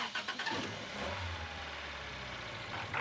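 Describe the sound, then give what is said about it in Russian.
Engine of a rusted Honda car jerking with a few rough bursts at the start, then a low, steady rumble that carries to the end. “Несколько раз дернувшись, машина замирает.”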